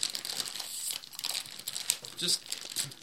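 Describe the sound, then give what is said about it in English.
A package is torn open with continuous crinkling and crackling of thin wrapping, fairly soft and steady for the whole stretch. “So maybe I should tear it open and just let you try.”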